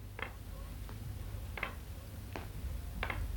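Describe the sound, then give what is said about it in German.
Knocking: five soft, evenly spaced knocks with a dry, ticking quality, faint over a low steady hum. “Wer klopft da? Da klopft doch einer.”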